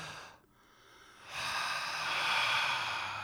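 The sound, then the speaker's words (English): Heavy breathing from a person running: a short catch of breath, a brief pause, then a long, breathy exhale that swells and stays strong. The sound is fairly quiet. “Oh, that's deliberate. I'm just exhaling.”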